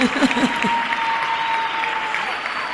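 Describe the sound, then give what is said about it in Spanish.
A theatre audience at a live concert in Buenos Aires applauds in a dense, steady wash of clapping. A brief voice is heard at the start, and a thin sustained tone runs through the middle. “Bien, el aplauso es para él, honestamente.”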